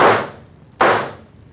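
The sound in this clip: Two gunshots are fired in quick succession. Each sharp, loud crack is followed by a long, fading tail, with no voices.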